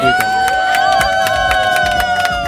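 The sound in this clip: Applause and cheering from a wedding party crowd at a convent venue: loud, continuous claps in a quick, fairly even beat, layered over sustained high cheering or whistling tones.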